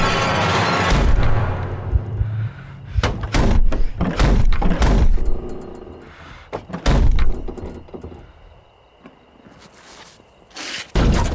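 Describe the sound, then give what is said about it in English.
Heavy slams of a car door banged repeatedly against a crouched man, a run of loud, blunt thuds in irregular bursts with quieter scuffing between them. “Suddenly, Jim appears and slams the door repeatedly on Dean's crouched form.”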